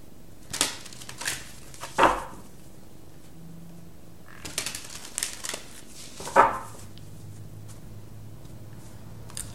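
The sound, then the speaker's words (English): A card is drawn from a Life Purpose oracle card deck: soft papery rustles and slides come in a few short bursts separated by quiet gaps. “All right, let me get one card from the Life Purpose deck.”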